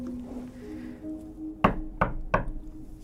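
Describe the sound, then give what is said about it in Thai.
Three light knocks on a door, evenly spaced and crisp, following a faint low tonal hum that fades beforehand. “สงัดเคาะประตูเบาๆ สองสาครั้ง”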